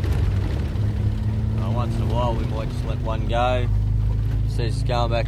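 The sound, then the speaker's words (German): A patrol vehicle's engine runs at full throttle as the car slides through sand, a low, steady drone that continues under people talking. “Auf vollen Touren schlingern wir durch den Sand.”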